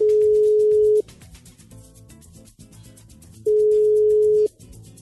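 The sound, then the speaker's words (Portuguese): A telephone ringback tone sounds while an outgoing call connects: two steady, mid-pitched one-second tones separated by a long, quiet gap. “eu vou ligar então para a Suhaile para bater um papinho com ela”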